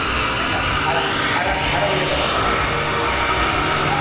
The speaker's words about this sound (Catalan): Sembla aquí té un amago d'aterratge. Sembla que va massa de pressa i l'atura, el tira amunt.